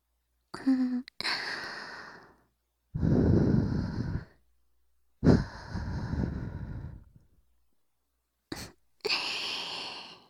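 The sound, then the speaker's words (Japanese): Soft breathy puffs of someone gently blowing into the listener's ear, several separate airy blows of varying length with short silent gaps between them, close and hushed, no speech. “さっきより、お耳ふうふうされるの、気持ちいいでしょ？”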